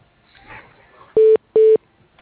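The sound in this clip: Telephone keypad tones as a voicemail number is dialed: two loud, steady beeps of equal length separated by a short gap, after faint low background noise.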